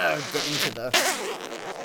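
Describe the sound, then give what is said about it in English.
A Spinarak weave vest's zipper is pulled up with a raspy zip, heard beneath a voice. “Put on my Spinarak weave vest. Zip it up.”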